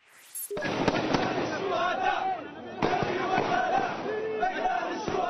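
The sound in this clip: Celebratory gunfire shot into the air in the streets of Tripoli, with several sharp cracks ringing out over a continuous roar of crowd shouting and chanting.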